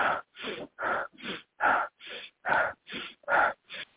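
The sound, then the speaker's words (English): A person imitates a toned-down version of an intense, rapid breathing technique: ten forceful, airy breaths in a steady, brisk rhythm, each strong and breathy, with short gaps between them. “So lately I've been experimenting with a new breathing pattern, which is essentially the Wim Hof method of breathing on a little bit toned down Wim Hof, so that people aren't noticing you going like,”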